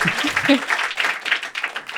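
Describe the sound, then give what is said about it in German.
An audience applauds a guest on a live show, a steady wash of clapping mixed with people talking over it. “Applaus für Lisa.”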